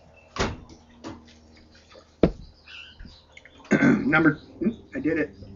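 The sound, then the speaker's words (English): A person clears their throat before reading aloud from a book. It is brief and rough, set among a few sharp knocks and clicks, and louder mumbled vocal sounds follow. “I did it. Clear throat.”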